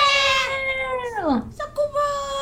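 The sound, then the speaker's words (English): A cat meows unhappily while being moved. It gives a long, harmonically rich cry that holds steady, then slides sharply down in pitch, and shorter cries follow. “To make up for the lack of cats, I have one here.”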